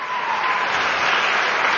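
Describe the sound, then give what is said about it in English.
Audience applause on a live television show: a dense, steady wash of many hands clapping that holds at an even, loud level throughout. “Let's give a round of applause for Carolyn for helping...”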